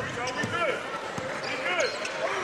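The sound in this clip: A basketball dribbled up the court during a boys' high school game, a few dull bouncing thuds heard under continuous play-by-play commentary.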